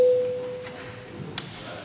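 A parliament's electronic voting-mode signal sounds as a single steady mid-pitched tone at the start, which fades away and is followed by a short click.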